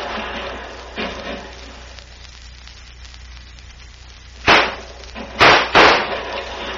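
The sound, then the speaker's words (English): Gunshots crack out in a Western range-war gunfight: three loud, sharp bangs close together near the end, after an earlier fainter pop, over a steady hiss. “One of those bullets came too close for comfort. Mother mia, now what to do? Bullets from all sides, and Senor Bucktooth”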